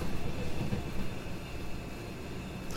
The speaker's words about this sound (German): Twindex RT54 fährt an uns vorbei. Auch nach Frankfurt Hauptbahnhof.